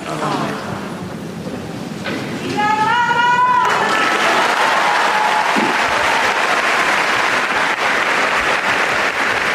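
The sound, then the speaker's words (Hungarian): A crowd in the Paul VI Hall erupts after a papal blessing, a raised acclaiming shout swelling into loud, dense applause and cheering that follows a quieter opening and carries on to the end. “Úgy látszik, hogy nem csak a téren szokták hát bekiabálni, hogy éljen a pápa, hanem itt a 6. pálteremben is, ezzel megköszönve az ő szavait,”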